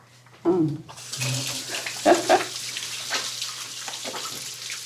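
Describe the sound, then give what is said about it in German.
Running tap water as hands are washed before grapes are crushed by hand: a brief thump, then a steady, hissing stream with splashy surges from the hands, alone with no voices. “Ich würde mal noch Hände waschen, weil Sauberkeit ist ja besonders wichtig”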